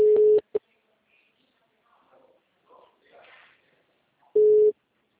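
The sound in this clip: A telephone ringback tone sounds on a call line as a steady, mid-pitched beep. One tone and a short blip come at the start, then a long quiet gap with faint rustling and murmurs, then another tone near the end.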